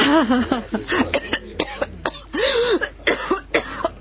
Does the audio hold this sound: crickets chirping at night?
no

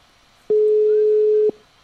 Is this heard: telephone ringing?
yes

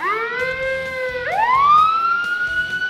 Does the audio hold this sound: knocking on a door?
no

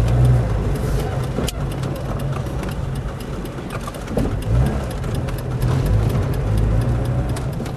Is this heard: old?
yes

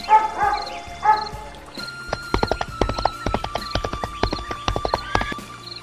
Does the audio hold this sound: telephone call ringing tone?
no

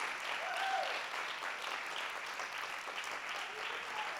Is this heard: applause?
yes

